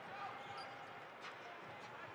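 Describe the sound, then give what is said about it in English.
A basketball is dribbled left-handed during a professional game, giving faint, quick, evenly spaced bounces under general arena noise. “left-hand dribble.”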